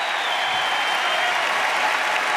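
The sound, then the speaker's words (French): A tennis crowd in the stands applauding and cheering on Gaël Monfils, a loud, dense roar of clapping and voices that holds steady without a break. “Écoutez le public qui est en train d'encourager Gaël Monfils,”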